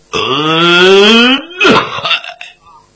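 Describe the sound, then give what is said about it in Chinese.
A storyteller's voice imitates a cough with a loud, drawn-out, throaty groan, followed by a rough, gravelly burst that tails off. “就听府门里边有人咳嗽了一声”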